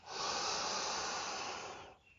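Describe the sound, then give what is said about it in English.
A deep breath in, drawn as one long, steady, airy hiss of about two seconds that fades at the end, quiet and with no talk. “Another deep breath in.”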